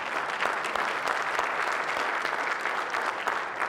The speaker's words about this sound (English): Why don't you, let's applause after that.